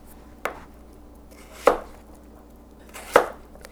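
A knife slicing through a large napa cabbage for kimchi: three crisp chopping strikes, spaced more than a second apart, with no talk over them.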